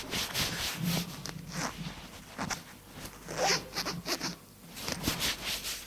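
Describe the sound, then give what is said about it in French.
Trousers picked up from the floor and pulled on, quiet fabric rustling and rubbing with zip-like scrapes, many short bursts separated by brief pauses, with no talk. “Il se lève. Prend un pantalon à terre pour l'enfiler.”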